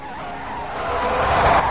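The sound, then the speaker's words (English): A sedan skids to a stop on muddy ground at a deserted urban warfare training site, a broad rushing tire hiss that swells steadily louder, with no voices. “Now in fading light, he motors into the deserted urban warfare site and skids to a stop.”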